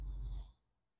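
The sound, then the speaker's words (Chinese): A single deep breath taken during a guided breathing exercise, soft and brief, with an airy rush that fades out after about half a second. “跟着我来做。首先，我们深呼吸”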